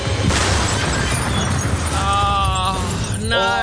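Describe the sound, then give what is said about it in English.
Explosion sound effect of a fuel bowser blowing up, a loud, dense roar that fills the whole clip, with bright ringing tones streaking through it toward the end. “Unfortunately, mate, the Bowser has gone boom and I can't give you any free fuel.”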